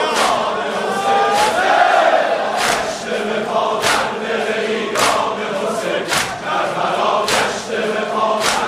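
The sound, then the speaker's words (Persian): A large crowd chants at a religious mourning gathering for Hussein in Iran, a dense, loud mass of voices. Sharp beats cut through it at a steady pace, roughly once a second. “این صدای شماست، دو دست بالا، این همه جمعیت.”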